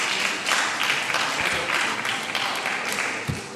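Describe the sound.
Audience clapping at a German-language panel discussion, a dense, continuous patter of many hands that holds steady throughout, with a brief thump near the end.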